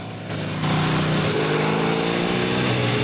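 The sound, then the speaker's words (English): A motorbike engine approaches from behind on a coast road at night. Its loud, rough drone swells in steps, then holds at full strength to the end. “Suddenly, another biker appears a short distance behind him.”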